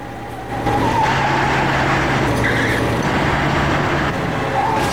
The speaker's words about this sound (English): Sprays of gravel fly up from the squealing tires. The cars are now racing along a busy highway, swerving in and out of traffic.